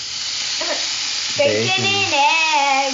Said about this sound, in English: Bacon and eggs.